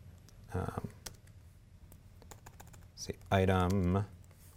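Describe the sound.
Many quick, light clicks of typing on a computer keyboard, tapping in an uneven rhythm, with short bursts of a man's voice speaking between and over the keystrokes.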